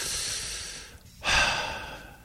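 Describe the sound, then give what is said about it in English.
A single deep breath, a brief airy intake that swells after a short pause and fades, heard alone without talk. “Can we just take a second and, like, breathe?”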